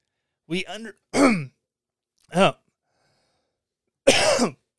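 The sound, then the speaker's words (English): Throat clearing from someone with something stuck in the throat: four short, rough, voiced bursts, with the last one the longest and harshest. “Something hung up in my throat. It did not feel very good.”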